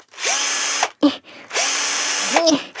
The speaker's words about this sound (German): Ich schraube mal kurz die Sessel wieder ab.